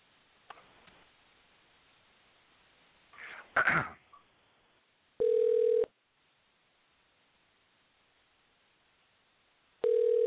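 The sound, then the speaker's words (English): A phone call placed to reconnect after a dropped line: two steady, identical electronic ringing tones several seconds apart, preceded by faint rustling and a brief noisy burst. “Hold on, let me call her back.”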